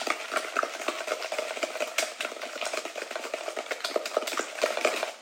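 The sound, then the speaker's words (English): A spoon mixes an added ingredient into dough in a bowl until it turns creamy, making many quick, rhythmic scraping and stirring strokes that continue steadily throughout. No voices are heard. “We're gonna add this guy to the dough and we're just gonna mix that in. And it'll get nice and creamy.”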